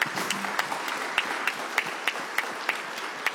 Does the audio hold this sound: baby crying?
no